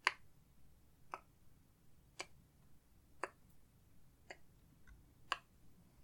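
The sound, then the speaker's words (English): A clock ticks gently at a desk: six sharp, faint ticks spaced evenly about a second apart, with nothing else over the quiet background. “of a clock counting by the time.”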